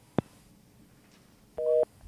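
A telephone line tone follows a dropped call. A single click comes first, then a steady mid-pitched beep repeats in even pulses, fairly faint.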